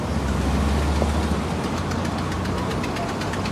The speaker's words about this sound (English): The taxi drives off.